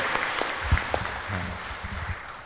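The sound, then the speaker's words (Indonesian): Applause from an audience at a stage event as a presenter leaves, with scattered, uneven claps that stay fairly faint and steady for about two and a half seconds. “give applause to round applause to Gania.”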